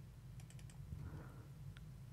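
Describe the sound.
Faint typing and clicking on a computer keyboard. A quick run of about four keystrokes is followed by one later click over a low steady hum.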